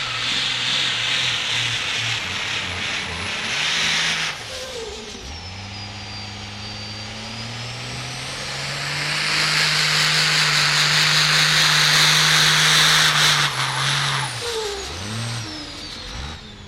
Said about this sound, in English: this 12 valve he's told us is set up for drag race, and he ran 1050s yesterday.